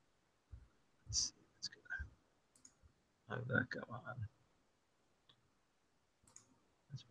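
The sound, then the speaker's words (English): Computer mouse clicks, a few faint, sharp taps spread out with pauses between them, and a short murmur of quiet speech in the middle. “I'm going to click again. Then I'm pretty sure I'm going to get it twice.”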